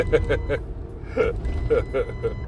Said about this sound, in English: Alright, truck, we're trying to record. Chill out. Man. Calm down with your beeping ass.